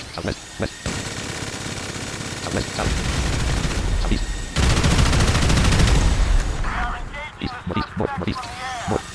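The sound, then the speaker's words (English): Rapid automatic gunfire from a video game as players shoot against a wall, loud sustained bursts with brief pauses between volleys; a few short voices come through near the end. “I think they're literally shooting against the wall.”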